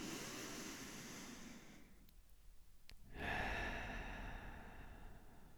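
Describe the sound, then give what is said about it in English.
A deep breath drawn in through the nose and let out through the mouth: a faint, airy rush of breath, a short quiet gap, then a fuller exhale that trails off slowly. “Let's take a deep breath in through our nose and a deep breath out through our mouth.”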